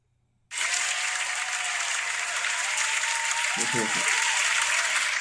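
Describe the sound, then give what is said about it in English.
Studio audience applause bursts in after a short silence and continues as dense, steady clapping at an even loudness until the end. “Did you like that? The live studio audience loves it.”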